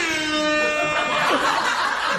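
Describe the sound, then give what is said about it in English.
An air horn sound effect, played by a studio audio engineer, gives a loud, sustained, harmonic-rich blare that lasts the whole clip, with laughter mixed in. “The guy in audio. Air horns. Whoever's in audio has been waiting to use that one.”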